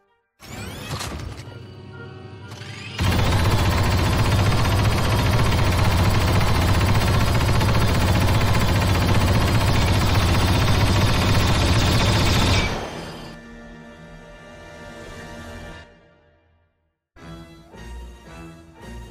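Barrels explode in a video game cutscene, knocking enemy minions down. A sudden, dense roar of blasts and rumble holds loud for about ten seconds, then drops to quieter clatter and a few scattered hits.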